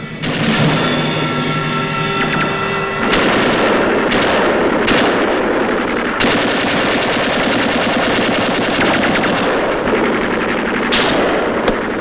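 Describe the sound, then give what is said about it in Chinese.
Machine-gun fire in a battle at a bridge: continuous rapid bursts of loud, sharp shots, dense and unbroken for the whole stretch, with no voices. “机枪，打！”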